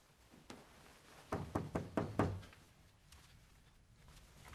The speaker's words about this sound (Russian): Бен с девушкой голая в кровати. Стучит Алекс. Бен, это я, открой.